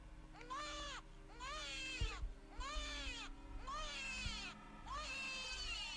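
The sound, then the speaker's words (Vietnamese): A child crying, five wailing, high-pitched cries with an arching pitch, coming in steady succession over a low, continuous drone. “Vừa quay người đi được mấy bước thì bọn trẻ con giật mình, nghe thấy đâu đó quanh đây có tiếng trẻ con khóc.”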